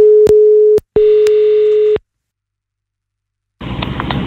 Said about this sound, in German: Ich rufe dich gerade mal zurück.